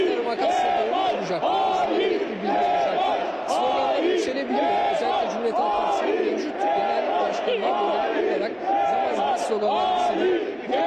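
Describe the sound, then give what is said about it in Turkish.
A crowd at a political rally in Ankara chants slogans in rhythmic, repeating phrases that rise and fall every couple of seconds. The loud massed voices keep going throughout. “ancak kitlenin zaman zaman bu konudaki sloganları dillendirdiğini söyleyebiliriz.”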